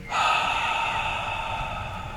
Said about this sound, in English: Exhale.